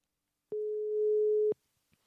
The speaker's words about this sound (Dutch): Even kijken. We gaan hem bellen.